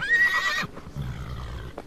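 A horse whinnies in one loud, high, harmonic burst lasting about half a second, followed by quieter low rumbling noise.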